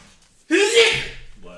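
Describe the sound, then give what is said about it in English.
A single human sneeze bursts out suddenly and loudly after a quiet moment. A brief voiced onset quickly spreads into a breathy, hissing blast that trails off. “Bless you.”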